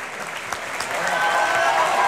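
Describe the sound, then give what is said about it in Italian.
Opera audience applauds a singer at the Teatro del Maggio Musicale Fiorentino during the second act. Clapping starts moderately and grows louder and denser after the first second, holding steady to the end. “e adesso invece molti applausi per Sesto Pompeo, Niccolò Balducci,”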